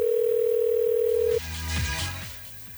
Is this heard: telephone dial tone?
yes